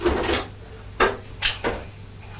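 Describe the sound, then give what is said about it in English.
A small pot, once used to hold sweets, is handled and comes apart, making a few light knocks and clatters at irregular intervals. The sounds are faint and heard alone. “Oh, has it come away now? That's the little pot that Grandma gave you.”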